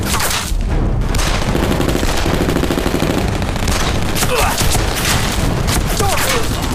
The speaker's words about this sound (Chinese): 开炮！ 哎，第一炮就打中了